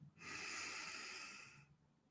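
A deep breath taken in a relaxed seated posture: one long, steady, airy rush of air lasting over a second, swelling smoothly and then fading. Quiet and alone, with no talk.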